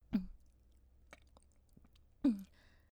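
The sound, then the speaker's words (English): Two gulps from a flask, a sharp swallow at the start and another near the end, with faint small clicks in the quiet gap between. “I oughta apologize to you for drinking out of your flask without your permission.”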